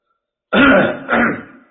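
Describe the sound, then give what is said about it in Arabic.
A man clears his throat in two rough, rasping bursts, the second slightly shorter and trailing off into silence, heard alone. “كحه الشيخ”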